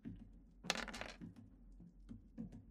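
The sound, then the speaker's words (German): Many dice, eleven of them, rolled during a tabletop role-playing game, clattering in one loud rattling burst followed by a few lighter scattered clicks. “Das heißt, er wirft mit elf Würfeln.”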